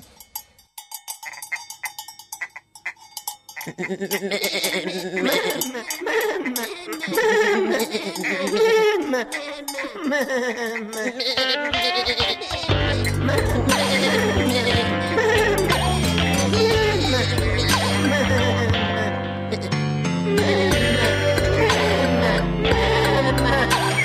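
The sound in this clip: Sheep and goats bleat in wavering, nasal cries under steady clanking cowbells, and the sound stays loud and dense throughout.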